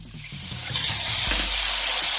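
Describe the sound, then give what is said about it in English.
Water hits a hot pan of browned shumai dumplings frying in vegetable oil, setting off a loud, steady hissing sizzle that swells and holds with no voices. “So I'm using vegetable oil. We're going to add our shumai dumplings onto the pan. As soon as the bottom is nice and brown, you want to add your water.”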